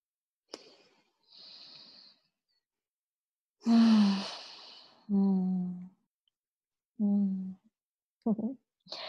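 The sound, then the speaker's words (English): A really deep breath: a soft inhale, then a long, loud breathy sigh, followed by brief voiced sounds and short bits of talk. “I just want to take a second to take a breath with that. Yeah, I'll join you with a really deep breath.”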